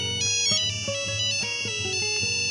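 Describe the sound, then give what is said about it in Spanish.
A phone rings with an incoming call, playing a bright electronic ringtone melody of quick, steady notes that continues throughout. “Don Justo recibió una llamada inesperada”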